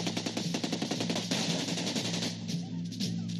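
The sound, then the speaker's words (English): Automatic fire from an AK-47 assault rifle: a fast, regular string of sharp cracks that runs into a dense, continuous burst of noise over a steady low hum. “the AK-47 assault rifle, the preferred weapon of your enemy, and it makes a distinctive sound when fired at you, so remember it.”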